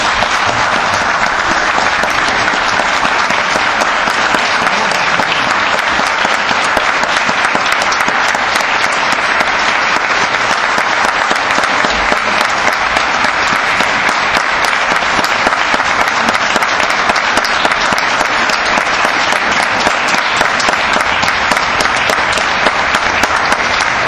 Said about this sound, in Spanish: para nosotros y para este cuerpo, un gran aplauso.